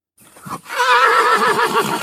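A Belgian draft horse whinnies: a brief low snort comes first, then a long, loud, wavering neigh with strong harmonics that holds steady to the end, with no voices.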